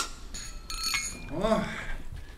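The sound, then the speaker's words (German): Cutlery, dishes and wine glasses clink as a table is set, with light metallic taps, a brief scrape and a clear ringing glass tone partway through. “Decken Sie hier inzwischen weiter ein, bitte. Wo sind die Weingläser?”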